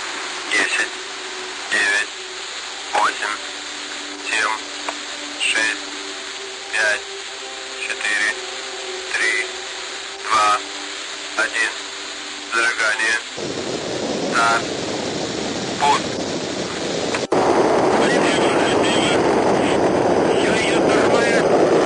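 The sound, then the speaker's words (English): Rocket roar of an R-7 launching Sputnik 3 from the Baikonur Cosmodrome: rhythmic radio-like bursts and a steady hum come first, then a broad rumbling roar swells in midway and grows louder toward the end. “On May 15th, Sputnik 3, the backup of Korolev's Object D satellite, launched from the Baikonur Cosmodrome by another R-7 rocket. Here's an audio clip of the launch.”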